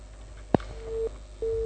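A telephone busy signal sounds after a dropped call: a sharp click, then two steady low beeps separated by a short gap, the second running on to the end, faint against a soft hiss.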